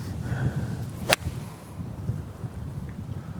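A golf ball is struck with an eight iron, hit easy on an uphill shot. The club gives one sharp, crisp crack over a low, steady background hiss.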